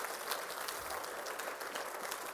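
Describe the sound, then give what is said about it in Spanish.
Applause from a church audience during a sermon, a faint, steady wash of many hands clapping that continues without pause throughout. “¿Le pueden dar un aplauso al Señor?”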